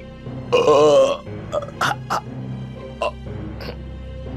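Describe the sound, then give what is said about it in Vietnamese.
A man burps loudly from deep in his throat: one long, rumbling belch followed by a few shorter, fainter gulping bursts. “từ trong cổ họng ông phát ra những tiếng ợ hơi rất là lớn”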